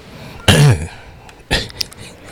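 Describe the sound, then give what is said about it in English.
A person clears their throat twice, with short rasping bursts. The first is louder and longer and the second is briefer, with quiet background between them. “Let's kick things off with a throat clearing, shall we?”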